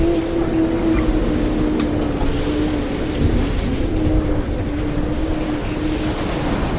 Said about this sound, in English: Greta Thunberg, sits on the edge of a sailboat as it rises and falls in turbulent water.